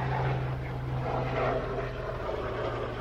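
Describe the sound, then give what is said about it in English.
A helicopter flying, heard as a steady low engine-and-rotor drone with a constant hum that stays even in loudness throughout. “But my ride is here. No, that's a helicopter.”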